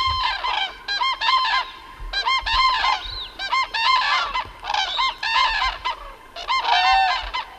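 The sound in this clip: Ducks on a lagoon give many loud, nasal honking calls in repeated bursts. The calls overlap and continue steadily from start to finish.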